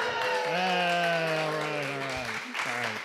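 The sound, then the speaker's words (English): An audience applauds and cheers for Dan Sickles. A steady wash of clapping runs throughout, and a sustained, drawn-out voice carries on top of it. “how do you feel about Sickles being cheered in this room right now?”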